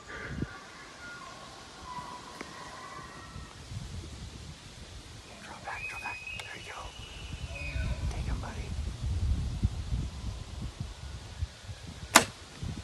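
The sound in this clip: A bow shot releases an arrow on a deer hunt, one sharp snap near the end after a long stretch of quiet outdoor rustling and hushed whispering.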